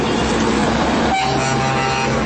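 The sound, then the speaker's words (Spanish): A tractor-trailer truck horn blares in one loud, sustained blast over heavy engine rumble, at an aid convoy of trucks near a blocked border bridge. “el presidente Guaidó se montó a uno de estos tractores, uno de estos tractocamiones, está tocando el pito”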